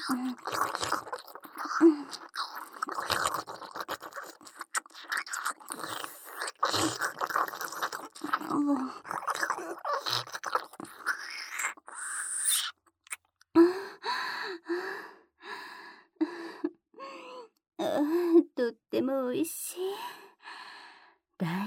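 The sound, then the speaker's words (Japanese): Wet kissing and lip-smacking mouth sounds repeat many times, mixed with soft breathy sighs and gasps, close and intimate, with no clear words. “ママに抱きしめられながらのキス、気持ちいいね。”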